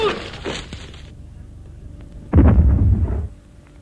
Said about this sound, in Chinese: 屋里又发出了爆炸声。这声爆炸不是地雷， 也不是炸弹，